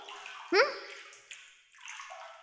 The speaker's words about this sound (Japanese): ほら、おいで。お背中流してあげる。